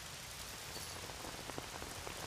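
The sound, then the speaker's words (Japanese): Rain falls steadily as a soft, even patter on a surface, with scattered sharper drop taps through the hiss. It stays quiet and constant, and no voices are heard. “こんな雨の日なのに。”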